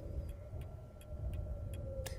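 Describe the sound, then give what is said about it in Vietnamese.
Clock ticking, with a steady series of soft, evenly spaced ticks over a constant low hum and rumble. “2 phút trôi qua, kim đồng hồ vẫn tiếp tục chuyển động theo từng tích tắc.”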